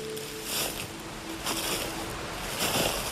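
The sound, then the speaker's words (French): Water trickling and lapping below in a forest, a soft, low-level wash broken by a few gentle surges of splashing at irregular intervals. “au clapotis, plutôt au ruissellement de l'eau en contrebas.”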